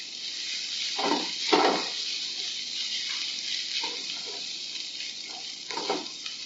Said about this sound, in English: So I'm constantly stirring, breaking up the egg into a little bit so that it mixes well with the rice. And I'm just using a soft spatula.